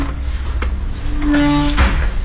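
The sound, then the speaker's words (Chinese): A door is pushed open at the entrance to an unmanned smart hotel behind a Soviet-style concrete courtyard wall. It gives a brief scraping sound with a sustained low tone, over steady background noise. “现在我们就推开门进去”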